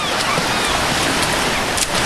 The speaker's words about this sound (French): Pour Françoise, c'est un tel plaisir d'aller à la plage avec sa petite fille Camille.